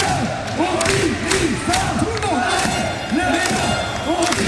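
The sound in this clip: Crowd roaring and cheering in a small, packed volleyball hall: a loud, continuous wall of many voices with shouted surges rising and falling throughout.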